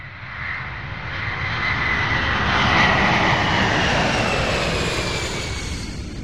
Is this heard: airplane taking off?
yes